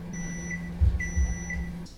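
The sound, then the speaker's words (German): A microwave oven runs with a steady low electrical hum under a high electronic tone, and a few brighter beeps rise over it. The hum cuts off just before the end, with some low thumps beneath. “Nehmen Sie die Box aus der Mikrowelle. Behandeln Sie das heiße Gefäß mit Vorsicht.”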